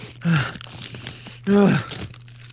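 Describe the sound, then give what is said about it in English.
Potato chips coated in seasoning are crunched: two loud, crackly bites about a second apart, with softer crackling in between and a faint low hum running underneath throughout. “break into some chips.”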